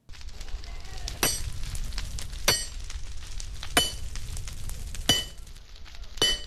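Two blacksmiths work a red-hot iron lump: one grips it with long tongs while the other strikes it with a large hammer. Five ringing metallic blows land at a slow, even pace over a low background rumble.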